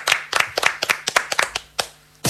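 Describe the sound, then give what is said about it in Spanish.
Applause for a guest: a quick, uneven run of sharp hand claps, followed by a louder, denser burst of clapping at the end. “Un aplauso para Manuela Paz.”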